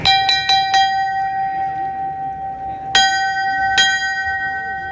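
A bell rings at the first lifting of a religious procession float for the Virgen de la Victoria in Málaga. A quick cluster of bright metallic strikes comes first, then two spaced strikes after a pause, with the tones ringing on between them.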